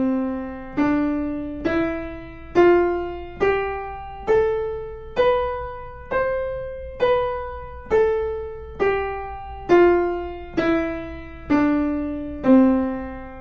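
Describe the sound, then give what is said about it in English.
Major scale played on an instrument, evenly spaced single notes that climb step by step and then descend back down, each note plucked-sounding and decaying before the next. “like this one, the major scale.”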